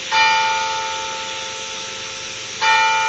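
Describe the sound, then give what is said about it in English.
The Big Ben clock tower bell strikes eight o'clock. Two loud strokes land about two and a half seconds apart, and the first rings on in a long, slowly fading tone. No talk. “we got the Big Ben here chiming. You might hear it in the background here.”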